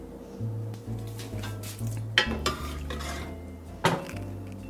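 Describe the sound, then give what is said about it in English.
Kitchen clatter of bowls and utensils as cooked bean liquid is drained into one bowl and the beans plopped into another, a few sharp knocks and clinks over a low steady hum. “So you're just gonna drain the liquid into a bowl and plop the beans into another.”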